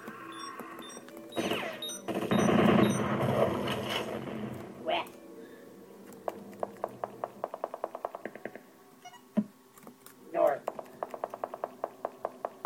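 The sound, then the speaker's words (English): A turret gun fires in a video game, two long strings of sharp, rapid shots in the second half, after a voice talks over louder game noise early on. “Whoa, holy crap. Turret gun.”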